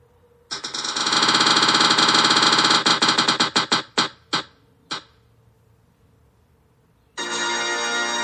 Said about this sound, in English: I'm gonna spin the wheel one more time.